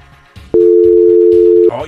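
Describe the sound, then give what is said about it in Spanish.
A telephone dial tone after a dropped call: a loud, steady, unwavering single pitch held for about a second, with voices talking just before and after. “No, se le cortó la llamada.”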